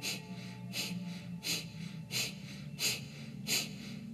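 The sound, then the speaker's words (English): Breathing during a pranayama meditation exercise comes as a regular series of short, airy, hissing breath bursts at an even pulse. There are about six in all, moderately loud and heard alone without talk. “The inhale is natural, just sucks back into the body. Focus on your exhale.”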